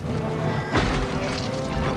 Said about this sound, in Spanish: Un proyectil impacta en la muralla y arrastra a varios defensores.